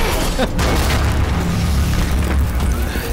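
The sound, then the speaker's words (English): Heavy booming blasts of a futuristic sci-fi gun firing in a video game make a loud, dense roar of low rumble and crackle that runs without clear gaps between shots. “I really wish I had a futuristic sci-fi gun. Oh, wait. I totally have a futuristic sci-fi gun!”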